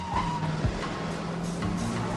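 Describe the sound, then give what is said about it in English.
Black and white police squad car rounding a street corner: a low, steady engine hum with faint tire noise, quiet and brief. “A black and white police squad car rounds the corner and heads in the direction of the Veterans Building. A moment later, another squad car turns into the road and follows after the first.”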